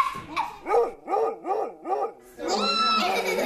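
A child imitates a dog with a quick run of short, yapping barks, each arching up and down in pitch. A longer, louder howl-like note follows.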